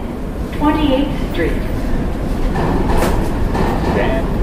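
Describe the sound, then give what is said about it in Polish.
A New York subway train rumbles and rattles in a steady, continuous roar from start to end, while a voice is heard over the noise. “Nowojorskie metro jest jednym z niewielu na świecie, które działa 24 godziny na dobę, każdego dnia przez cały rok. To metro nigdy się nie zatrzymuje.”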